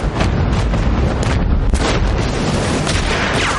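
Dense, unbroken roar of battle noise from a naval fight, with an explosion and gunfire striking sailors on a boat near a buoy in a 2008 war drama. It stays loud and rumbling throughout, with no distinct single shots standing out.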